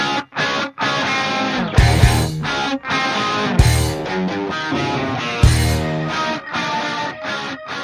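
A band's rock song plays at full volume, with heavy, distorted guitar tones and strong drum hits punching through at intervals across the passage.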